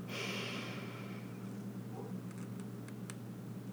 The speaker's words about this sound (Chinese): 我陪着你们做一次，吸气，